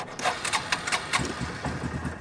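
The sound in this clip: A forest green ATV engine starting on a practice field near trails. A few rough cranking bursts lead into the engine catching, then a quick, even putter of low idling pulses that is fairly faint and heard alone.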